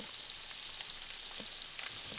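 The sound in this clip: Calf liver sizzles steadily in a frying pan, giving a continuous bright hiss speckled with small crackles and pops, with no talking.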